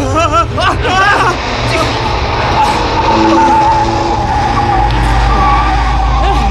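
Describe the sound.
A car speeds and skids through a chase, its engine overheating with the temperature gauge in the red. A continuous loud engine roar carries high squealing tones throughout, under excited shouting voices.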